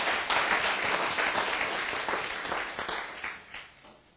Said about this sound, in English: Give the Lord a big hand, please.